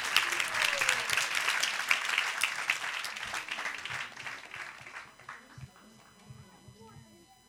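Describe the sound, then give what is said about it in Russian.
Audience applause at a workshop: many hands clap in a sustained burst that gradually fades out, then a voice begins speaking. “Please give them a clap too. Пожалуйста, бурные аплодисменты.”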